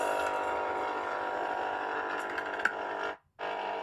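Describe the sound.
A coffee machine brewing coffee gives a steady, faint mechanical whir and hum with a small click near the end, then a brief silence before the hum returns.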